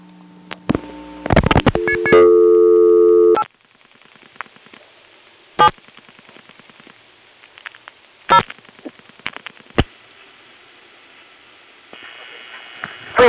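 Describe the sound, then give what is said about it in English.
Telephone switching sounds from a call to the invalid office code 870 on an old step-by-step exchange: a loud burst of stacked tones, then scattered clicks, and a steady tone returning near the end. “870, another invalid office code, we'll get the recording from the 87 step, which in this case happens to have a very uninformative recording ID, which I can assure you didn't last very long.”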